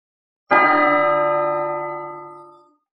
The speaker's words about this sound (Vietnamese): Tiếng chuông dằn dặc lại vang lên.